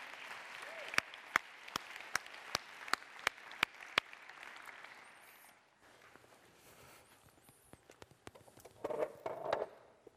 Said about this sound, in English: So if you would, just put your hands together and welcome my friend Jason Fenton to the stage.